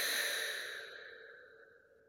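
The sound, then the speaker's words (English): A long, deep exhale during a breathing and tapping relaxation exercise, soft and breathy, fading steadily over about two seconds with no speech. “Just now take a deep breath in. Release it.”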